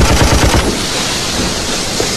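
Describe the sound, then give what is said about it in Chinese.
Rapid gunfire from troops firing warning shots at a railway bridge: a dense burst of crackling reports at the start, then a steady, noisy wash. “十二方面军长官官吏， 鸣枪示警，让他们停下。”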